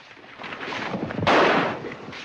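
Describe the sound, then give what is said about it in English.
Gunfire in an ambush on outlaws at a bank: sharp, crackling shot bursts build into one loud, dense blast partway through, then continue at a lower, rough level. “More shots ring out as an ambush is launched on the James gang.”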